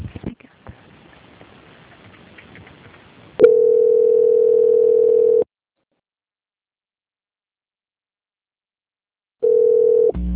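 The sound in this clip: A steady telephone line tone plays while a bank call is being transferred. Two flat, even bursts sound, the first about two seconds long and the second under a second, with a long silence between them. Faint low-level sound comes before the first burst.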